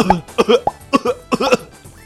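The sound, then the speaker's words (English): A voice imitates someone coughing and gagging up small balls of feces: several harsh, throaty cough bursts in quick succession, each short and forceful, with brief gaps between. “That was my impression of poop balls coming out of your mouth.”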